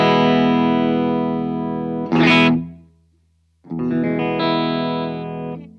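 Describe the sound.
A distorted Gibson Lzzy Hale Explorerbird electric guitar in the middle pickup position rings out in a long sustained chord, then a brief scraping strum, silence, and another held, ringing chord.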